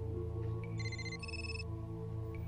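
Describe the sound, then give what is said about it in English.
A scrambler phone rings once: a short electronic burst of two alternating high tones over a steady low hum, with no voices. “The scrambler phone begins to ring.”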